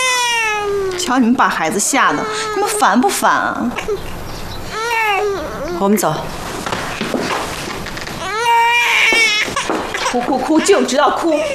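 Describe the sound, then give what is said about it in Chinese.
A frightened young child cries in loud, repeated wailing sobs whose pitch rises and falls, with short breaks between the wails throughout. “哭哭哭，就知道哭。”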